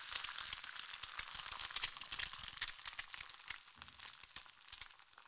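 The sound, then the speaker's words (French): Crêpe batter frying in hot oil in a pan gives a steady, dense crackle and sizzle that stays fairly even throughout, with no talking. “Tu verses un peu d'huile dans la poêle et tu fais chauffer. Ensuite, avec la louche, tu répands une mince couche de pâte dans la poêle.”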